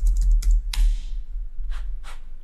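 Computer-keyboard typing as a question is entered into ChatGPT: a quick cluster of keystrokes followed by a few sparser, lighter clicks.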